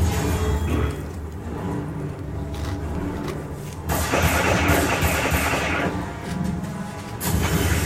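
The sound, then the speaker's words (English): An energy gun charging up in a Captain America film scene, heard as a dense, engine-like mechanical hum and rumble that swells louder partway through and surges again near the end. “God damn, look at that gun. Sounds like Iron Man there, you know, charging up.”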